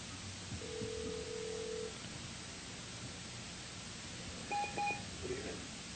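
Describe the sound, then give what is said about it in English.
A telephone dial tone sounds as one steady, low, faint hum lasting about a second. A few short, higher electronic beeps follow later over a soft background hiss. “You went to get coffee, and we got a dial tone. Yeah, I heard your music, and then all of a sudden I heard this long tone,”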